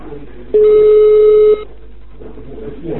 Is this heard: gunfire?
no

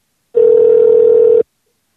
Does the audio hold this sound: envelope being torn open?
no

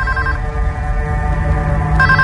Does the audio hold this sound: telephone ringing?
yes

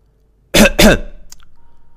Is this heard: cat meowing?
no

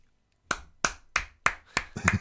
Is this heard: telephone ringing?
no

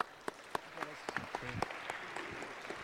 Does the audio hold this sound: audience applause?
yes

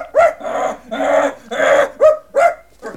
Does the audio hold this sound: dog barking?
yes

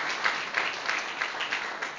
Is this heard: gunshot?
no

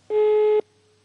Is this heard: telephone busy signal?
yes

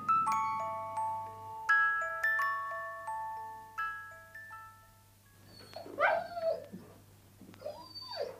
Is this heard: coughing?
no

